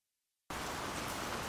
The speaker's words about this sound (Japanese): しとしとしとしと、今日も雨降り。